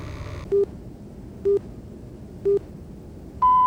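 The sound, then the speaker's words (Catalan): Radio time signal marking midnight: three short, evenly spaced pips about a second apart over a hissy background, followed by a longer, higher-pitched tone. “En acabar de sentir el senyal, seran les 12 de la nit.”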